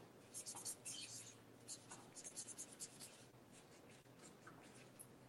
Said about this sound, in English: he would like you to just sign it and write the Sands of Time